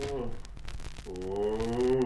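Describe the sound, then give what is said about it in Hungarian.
A lion roaring: two deep, drawn-out tonal growls, the first shorter and the second longer and louder, with no talk. “Aha, egy oroszlán.”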